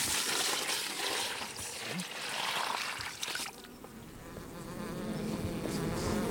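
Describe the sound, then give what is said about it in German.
Honeybees buzz in a crowded hive where every comb gap is occupied, a dense, continuous droning hum that stays fairly soft and even throughout. “Das sind alle Wabengassen besetzt und es sind viele Bienen im Stock.”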